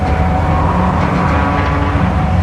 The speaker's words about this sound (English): Trucks drive near a harbor's edge.